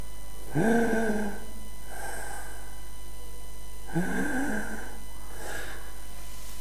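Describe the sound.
A voice imitates the laboured, wheezing breathing of an asthmatic child with bronchitis. There are four raspy breaths in two pairs: each pair is a louder wheezing gasp followed by a softer exhale.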